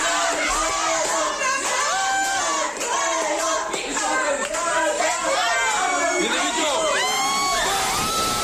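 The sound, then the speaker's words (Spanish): Fans in a Georgian restaurant in Madrid cheering a football goal: loud, continuous crowd shouting with excited whoops and high yells that hold at full volume for the whole stretch. “escuchad cómo celebraron el segundo gol en un restaurante georgiano de aquí de Madrid.”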